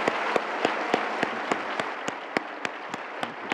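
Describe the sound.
An audience at a Baylor University campus event applauds to welcome a guest speaker. The dense, even clapping continues throughout, with one nearby clapper's sharp claps standing out at a regular beat.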